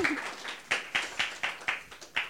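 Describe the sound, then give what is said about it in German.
Studio audience clapping in unison to welcome a guest onto a talk-show sofa. The sharp, fairly quiet claps land together in a steady, evenly spaced beat. “Jetzt habt ihr nicht so lange geklatscht, dass er bis aufs Sofa gekommen ist. Ah, da geht noch was.”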